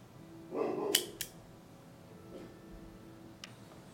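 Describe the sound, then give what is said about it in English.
A regular guillotine blade on a Cassetti dual cutter slices the end of an Arturo Fuente Hemingway cigar: a brief rustling snip, then a couple of crisp, sharp clicks, faint and alone. “I'm not doing my normal V cut because of the size of the end of the cigar. I'm going to go ahead and use the regular guillotine.”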